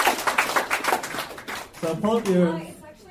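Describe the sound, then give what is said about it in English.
Applause for an audience member at a live show: a short burst of sharp claps, followed by a person talking. “Round of applause for Rebecca. For being here.”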